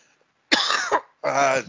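Coughing in a few harsh, rough bursts in quick succession, loud and alone with no talk around them.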